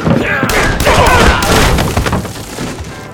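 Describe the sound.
Pistol gunshots in a gunfight, one man against four: a dense, loud burst of sharp cracks and heavy booms that keep coming for a few seconds before thinning out.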